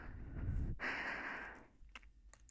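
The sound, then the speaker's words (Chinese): Heavy breathing: a loud, rough intake of breath is followed by a long, airy exhale that trails off into near quiet. “喘气的声音也好好听”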